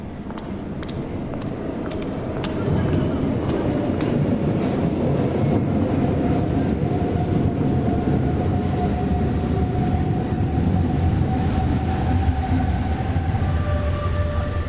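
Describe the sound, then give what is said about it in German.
A subway train arrives at an underground station with a continuous heavy rumble and rattling clatter that swells louder after a couple of seconds, while thin, high squealing tones drift above it. “Sie steigt in die ankommende Bahn.”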